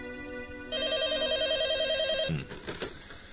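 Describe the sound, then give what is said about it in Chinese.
A telephone rings with an electronic trilling tone, one loud, sustained burst lasting about a second and a half that then cuts off abruptly. “可就在这个时候，电话铃响”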